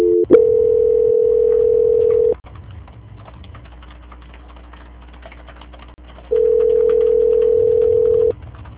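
A telephone call-transfer tone sounds as two long, steady, loud tones. Between them a quieter line hum runs with faint clicks, and no voices are heard.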